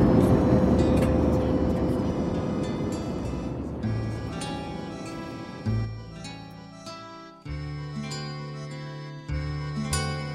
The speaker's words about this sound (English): Thank you for flying with me. We wish you a good normal journey. Bye-bye. Thank you very much. Cabin crew, prepare for landing.